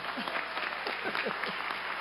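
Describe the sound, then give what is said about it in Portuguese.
Audience applause at a formal civic ceremony, an even, continuous patter of many hands clapping at moderate loudness throughout. “Dá uma salva de palmas para ele aí.”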